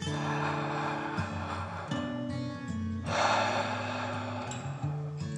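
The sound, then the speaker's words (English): Slow breathing in and out during a children's bedtime relaxation exercise, soft airy breaths with one fuller exhale midway, set over sustained, gently shifting tones. “Breathe in and out.”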